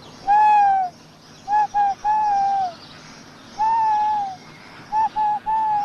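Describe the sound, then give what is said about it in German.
A tawny owl hoots in two phrases. Each phrase starts with a drawn-out, mellow note that falls slightly at its end, then continues with a few shorter, wavering hoots at the same mid pitch, with no voices or other sounds. “Der Waldkauz klingt immer etwas unheimlich und für den, der nicht stimmkundig ist, der wird sich vielleicht ein wenig verschrecken. Das klingt also etwa so.”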